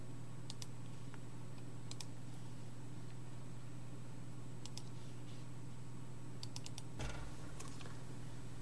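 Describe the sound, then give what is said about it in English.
Faint computer keyboard and mouse clicks, someone trying to press the right button. There are a few isolated taps and a short cluster of clicks over a steady low electrical hum, with no talking. “So what I've got on the screen there isn't quite right. 61 verse 10. And thank you to Christopher for reading this. Let me try and click the right button.”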